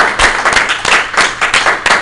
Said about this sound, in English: Can we just take a second to give the convention committee a round of applause?